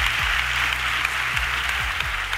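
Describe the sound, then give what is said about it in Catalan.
Audience applause at an awards ceremony, a steady, dense clapping wash throughout, with low tones that repeatedly fall beneath it. “Un aplaudiment per la ràdio, o què? Visca la ràdio! Va.”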